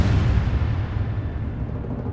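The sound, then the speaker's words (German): Bombs exploding over a ghetto blend into a continuous, heavy low rumble that stays steady in loudness throughout, with no separate blasts standing out. “Da traf die erste Bombe das Ghetto. Das sind doch unsere Verbündeten. Weitere Bomben trafen das Ghetto.”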